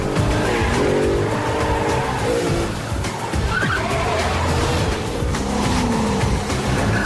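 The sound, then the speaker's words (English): Cars, one of them a green Volvo, accelerate hard and speed away on a motorway, with a loud, continuous engine roar and whining tyre noise that shifts in pitch from start to finish. “Go, go, floor it! The driver presses down on the accelerator. The Volvo driver sees them in his rearview mirror, pulls out, and speeds up.”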